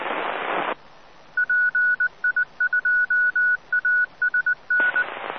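Telephone dialing tones making a connection: a rapid series of many short, steady beeps of uneven length, with hissing noise before and after.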